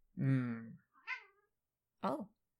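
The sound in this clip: A cat meows three times. A long, loud call is followed by a shorter, higher one and a final brief meow after a pause.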